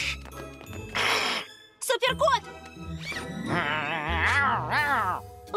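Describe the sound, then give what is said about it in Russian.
A cat meows in a short, wavering cry among animated character voices, with lively talking before and after it. “Мяу. А, только не это. О, какой милый котик! Киса-киса!”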